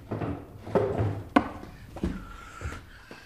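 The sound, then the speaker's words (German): A wooden drawer is opened and a blank tape is taken out beside a reel-to-reel tape machine, giving a few quiet thunks and knocks with soft rustling and sliding in between. “nimmt die alten Spulen vom Gerät, holt aus der Schublade ein leeres Band,”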